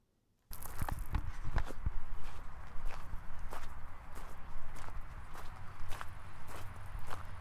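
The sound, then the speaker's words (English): Footsteps crunching on gravel on the way to a farmer's crops, many crisp, fairly loud steps in an even walking rhythm, starting after a moment of silence. “Somewhere around here, I got some more walking on gravel.”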